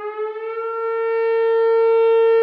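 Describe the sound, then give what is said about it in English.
An old emergency siren wails in a steady, sustained tone with strong harmonics. Its pitch holds level while the sound swells slightly louder and stays continuous throughout, with no voices. “There are just a siren that notifies you. There's no voice and there's no means to tell you what to do once that siren's activated.”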